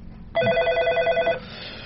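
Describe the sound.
A telephone ringing: one warbling, bright electronic ring burst lasting about a second, then fading into a quieter lingering tone.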